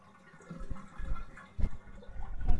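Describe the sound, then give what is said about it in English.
Bath water drains out of a tub as a child stands in it, heard as irregular gurgles and sloshing bursts that grow louder toward the end. “Mommy's letting all the water out. You need to get out, too. It's going down the drain.”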